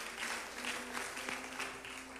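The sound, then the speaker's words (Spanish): A church audience claps together after a service, offering applause to the Lord. The clapping is faint and steady, with a soft, loosely pulsing rhythm and no talk over it. “Dale una ofrenda de palmas al Señor, que hemos terminado, gloria al Señor.”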